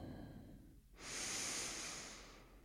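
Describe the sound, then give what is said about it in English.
One slow, deep breath drawn in through the nose. It is soft and airy, swells for about a second and a half, then tapers off, heard alone and faint. “let's take a full breath in.”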